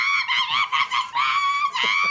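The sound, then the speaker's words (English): A voice imitates a woman screaming like a wild animal, letting out several strained, high, honking shrieks in quick succession. “the girl who is trying to put the dress back together is screaming at this point like a wild animal. And now it's gone to 20 seconds and the studio is getting quieter. The band has stopped playing and she's literally going,”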